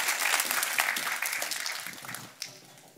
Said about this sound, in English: Let's give our helpers a round of applause.